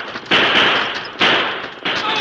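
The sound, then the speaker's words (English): Three loud gunshots in a Western stagecoach holdup scene, each a sharp blast with a long, noisy tail that fades before the next. The shots come at uneven intervals, with no voices between them. “I'll open fire on the critter!”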